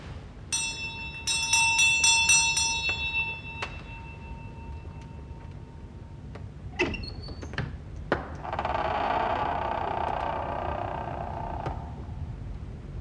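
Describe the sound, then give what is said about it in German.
A small hand bell rung to summon a servant chimes quickly several times with bright, ringing high tones. A few dull knocks and a longer, softer rustling noise follow. “Sie haben geläutet, Sir?”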